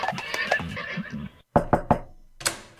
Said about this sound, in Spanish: aparca donde pueda y échale avena a los caballos, que luego se me comen el césped del vecino.